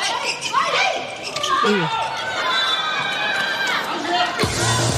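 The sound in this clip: Volleyball serve during a match involving Vietnam's team, a ball strike amid arena crowd chatter and cheering, with a commentator talking over the noise.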